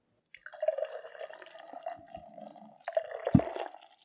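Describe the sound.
Beer being poured, a bubbly, gurgling liquid stream in two bursts separated by a short gap, with a sharp clink partway through the second burst and no voices.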